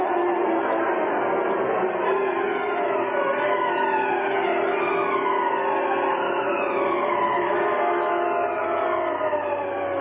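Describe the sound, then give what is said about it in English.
Police car sirens wail in a radio drama car chase as they pursue the Black Beauty, several overlapping tones sweeping up and down in pitch over a loud, continuous engine roar. “Sitting behind the wheel of the Black Beauty, Britt Reed, wearing the mask of the Green Hornet, led the police in a wild chase through the city streets.”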